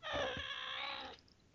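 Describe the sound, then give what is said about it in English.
A cat lets out a single drawn-out, tonal meow that holds steady for about a second before cutting off, faint and alone. “what the hell was that? It's my cat.”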